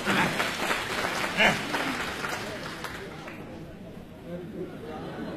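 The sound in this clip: Audience applause at a comedy show: faint, steady clapping that gradually thins out, with voices chattering underneath.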